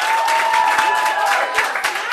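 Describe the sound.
Audience applause at an open mic night in a small youth center, steady clapping mixed with a crowd murmur, moderately loud throughout.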